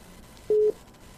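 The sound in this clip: Telephone call tone while placing a call: a single short, clear beep lasting about a fifth of a second over a low, steady background hiss.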